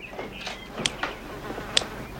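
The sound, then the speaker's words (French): A fly buzzing in a few short, faint bursts that come and go irregularly, with no voices over them. “Avec une tapette, ce serait plus facile. Homme qui attrape mouche avec des baguettes est homme qui réussit tout.”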